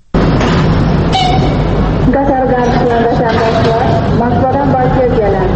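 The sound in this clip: A train at Baku railway station gives a loud, continuous rumble with tonal squeals and hums running through it, and voices are mixed into the din.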